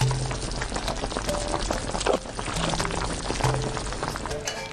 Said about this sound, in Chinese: 两勺豆瓣红油，配上其他佐料，撒上葱花，加入滚烫的面汤，红油豆瓣充分散发香气